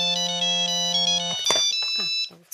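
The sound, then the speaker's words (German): Phone ringtone for an incoming call: a bright, steady melodic electronic tone plays loudly and evenly, then breaks off partway through and is followed by a few short, scattered noises. “Sie ruft an, Leute, sie ruft an.”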